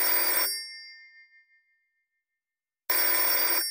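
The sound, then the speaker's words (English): Telephone in a motel room ringing unanswered: a bright, shrill burst of bell ringing fades out, then after a silent pause a second loud burst of ringing begins. “no one answered the phone, which was unlike Craig”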